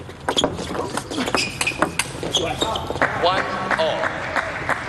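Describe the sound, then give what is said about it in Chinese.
A table tennis ball bounces during a serve in a men's doubles match against a German pair, giving a run of quick, sharp, bright clicks against a busy background with voices. “林诗栋发球。”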